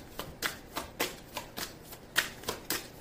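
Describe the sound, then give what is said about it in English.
Tarot cards handled as one is drawn from the deck, with many quiet, crisp papery flicks and snaps coming in a loosely regular rhythm, alone without talking. “I'm about to actually take a card.”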